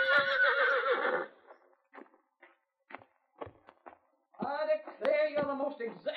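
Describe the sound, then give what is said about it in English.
Blackie, a horse, whinnies loudly at the start, followed by a run of soft, scattered hoof clops, then a second long, shrill whinny that rises and wavers near the end. “Dad gave Blackie to me for my birthday as a present. A boy like you's got no use for a horse.”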